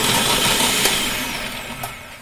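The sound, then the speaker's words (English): A food processor whizzes up peeled garlic cloves with a loud, steady, rushing whir that eases off gradually toward the end, with no talking over it. “And then I've got some garlic, and I've already peeled that. Just going to pop all that into the food processor and whiz that up.”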